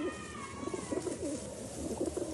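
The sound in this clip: Doves cooing: soft, low, repeated coos in a steady rhythm over a constant background hiss, with no voices.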